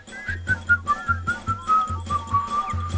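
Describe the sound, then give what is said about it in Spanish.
A group of people whistles together as a chorus. High, wavering whistled tones run over a rhythmic, pulsing low accompaniment, and there is no talking. “Qué lindo, el coro estable de Angelitos Silbadores.”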